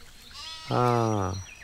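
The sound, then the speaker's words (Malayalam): A goat kid raised at home gives a single drawn-out, wavering bleat of medium pitch that stands out clearly against quiet background noise. “എടാ, വീട്ടിലെ ആട്ടിൻകുട്ടി.”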